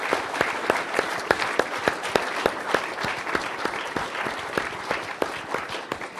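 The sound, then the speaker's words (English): A church audience claps together in a sustained round of applause. Sharp, regularly spaced accented beats stand out over a dense bed of hand claps. “Yeah, let's give the Lord a clap.”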